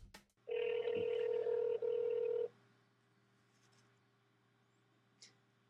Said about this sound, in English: So we'll start that by dialing 1-800-WX-BRIEF.